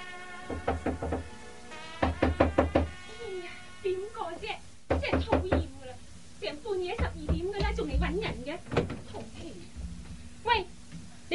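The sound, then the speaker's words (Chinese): Hard knocking on a door: a few bursts of rapid, heavy blows in the opening seconds, followed by people talking in Cantonese. “拍得咁大力做咩啫？ 对唔住啊，小姐，我拍门拍咗好耐都唔见有人嚟开门”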